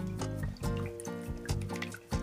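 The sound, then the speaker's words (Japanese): Water pours and splashes into a bowl to rinse oysters for a miso soup with shungiku and shimeji, coming in a few gurgling bursts with dripping and a ringing, filling tone, fairly faint. “これでだいぶね今汚れ出ましたでももうちょっとこういう形で水を入れて”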